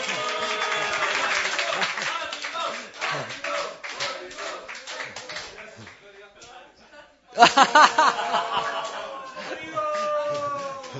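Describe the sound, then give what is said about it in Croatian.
Audience applause: bursts of clapping mixed with voices, dipping into a lull before a sharp, loud renewed round of claps that then settles into steadier applause. “Treba još jedan aplauz.”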